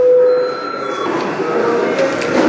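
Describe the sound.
Parliament chamber bell rung to call deputies for registration, a steady electric ringing tone held through the whole stretch at an even level over faint background noise.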